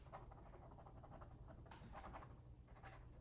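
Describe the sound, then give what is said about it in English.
Scratching of writing as something is jotted down: faint, dry, papery strokes in a few uneven bursts, soft and close. “I need to write that one down.”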